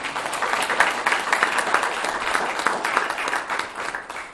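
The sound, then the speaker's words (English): A round of applause from a meeting audience honoring three employees for twenty years of service each. The clapping is dense and steady, holding at an even level for the whole span with no talk over it. “I think we owe them a round of applause for the record.”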